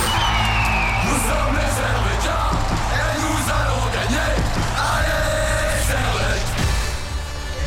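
A crowd yells and cheers in the BCF Arena before a live event. The roar is loud and continuous, with scattered shouts and whoops rising above it.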